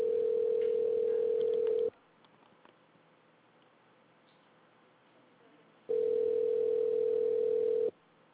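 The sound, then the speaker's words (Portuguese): A telephone ringing tone on the line while a call is transferred: two long, steady, mid-pitched tones, each about two seconds, separated by a quiet gap of roughly four seconds. “Por favor, aguarde. Estamos transferindo sua ligação para um de nossos atendentes.”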